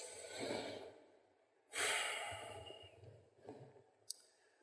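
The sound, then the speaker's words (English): A deep breath, soft and airy, with a sudden strong intake followed by a long fading exhale and a single small click near the end. “just let's take a breath here for a minute.”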